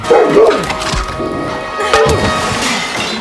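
A dog snarling and barking as it attacks during a scuffle, with knocks and thumps mixed in; the noise is loud and busy throughout, with sharp outbursts near the start and again about two thirds of the way through.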